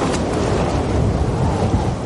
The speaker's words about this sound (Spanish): La nieve está muy bien. Pero hay viento y niebla.